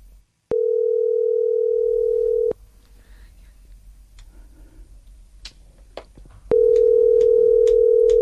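Telephone ringback tone on an outgoing call: two long, steady, mid-pitched tones separated by about four seconds of faint background, the second tone still sounding at the end.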